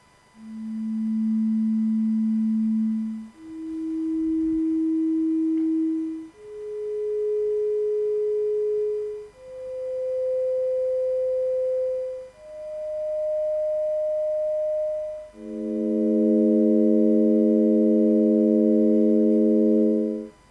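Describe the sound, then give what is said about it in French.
A Cepheid variable star's pulsation rendered as sound: six pure electronic tones, each held for a few seconds and stepping upward in pitch. The sixth and longest is a sustained chord of several stacked tones. The tones are steady and smooth, with no voices. “Donc, maintenant, on va écouter une céphéide.”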